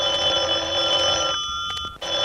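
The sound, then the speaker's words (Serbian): A telephone rings with a bright, buzzing electronic tone. A sustained ring breaks off into a short gap, then the next ring begins. No one speaks. “sad još zvoni taj prokleti telefon!”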